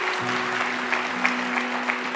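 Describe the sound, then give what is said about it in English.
Audience applause for children brought up front at a church service, a brief burst of dense, even clapping blended with sustained musical tones underneath. “Can we give it up for the kids here tonight?”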